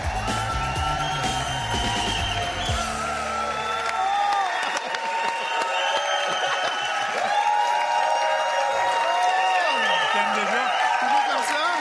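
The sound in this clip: A studio audience applauds and cheers as the show's hosts are introduced. Whoops and shouted yells ride over a sustained bed of clapping that keeps going to the end.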